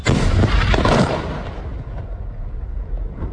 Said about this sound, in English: And that was the sound of an Israeli strike on a building in one of the largest cities in the country, Tyre in the south.